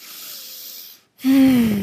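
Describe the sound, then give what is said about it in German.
A deep breath during a guided relaxation exercise: a soft, airy inhale of about a second, a brief pause, then a louder voiced exhale that sinks steadily in pitch like a sigh. “schenke dir diesen nächsten tiefen Atemzug.”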